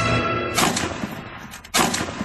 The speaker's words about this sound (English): two shots, two misses.